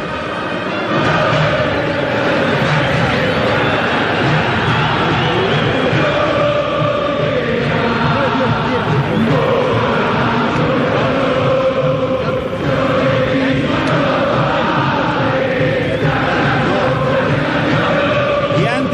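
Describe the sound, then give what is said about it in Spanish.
Boca Juniors fans cheering and chanting in the stands at the Tomás Adolfo Ducó stadium, a dense, unbroken wall of crowd noise with sung voices running through it, steady and loud for about nineteen seconds. “Sí, me quito ahora mismo y vamos a escuchar todo eso que vivimos en las diferentes graderías, en los diferentes sectores del estadio.”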